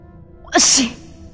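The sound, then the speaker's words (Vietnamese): A man sneezes once out at sea on a windy evening: a single sharp, loud burst with a quick breathy intake leading into it, heard alone. “Triển Chiêu đột nhiên hắt xì.”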